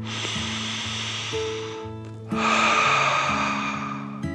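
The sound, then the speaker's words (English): A deep breath drawn in and then let out as two long, airy swells, the exhale louder, over soft background music with stepping low tones. “I will relax the plant with a deep dragon breath, Allie said, and she took a deep dragon breath in and out.”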